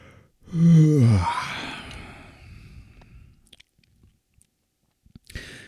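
A yawn from a tired person: one long voiced yawn whose groaning tone slides downward in pitch as it stretches out, then trails off into a quiet, breathy exhale, followed by near silence and a faint brief rustle at the end.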